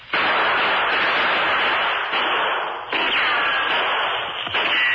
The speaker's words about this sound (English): The three men ran in crouching position to the safety of the trees just as a shot rang out.